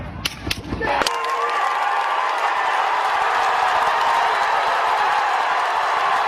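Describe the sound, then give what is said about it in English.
Gunshots ring out in news footage of a shooting: a few sharp, loud cracks in quick succession, then a steady roar of crowd noise carrying on to the end. “All we know was shots were fired, and then I jumped over the barrier and put my hand on the guy's head”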